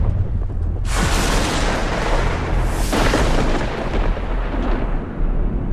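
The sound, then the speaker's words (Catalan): Massive cinematic explosions from Christopher Nolan's film The Odyssey: two huge booming blasts over a heavy, continuous rumble that stays loud throughout. “volen saber com sona l'Odissea? Volen saber quin és el so d'aquesta mega producció que estic segura que anirà als Òscar? Sona així.”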